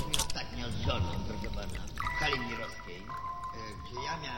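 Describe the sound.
Wine poured from a bottle, a continuous gurgling, trickling stream of liquid running beneath spoken narration throughout.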